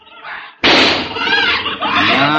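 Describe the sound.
A gunshot goes off during a shootout in an old crime drama, a single sudden loud blast that cuts in after a quieter opening and trails into a sustained roar with thin whining tones.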